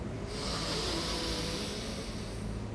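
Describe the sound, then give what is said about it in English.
A deep inhale during a yoga breathing practice: a steady, airy hiss of breath drawn in for nearly three seconds, faint and alone. “So deep inhale.”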